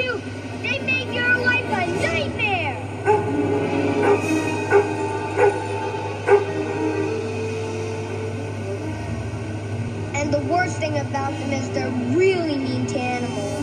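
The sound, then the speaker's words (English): A three-legged dog yipping and whimpering, with a few high, thin whines near the start and again toward the end, mixed with people talking and a steady background hum. “especially this one three-legged dog. Tripod! Tripod! The dog's name is Tripod!”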